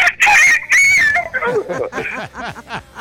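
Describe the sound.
A rooster crows in a rural setting with a loud, strained, wavering high call. A run of shorter, rhythmic throaty calls follows and fades in loudness.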